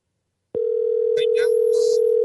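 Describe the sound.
Telephone dial tone after a phone call drops: a loud, unbroken, mid-pitched steady hum that starts abruptly after a short silence and holds level to the end, with faint brief noises over it.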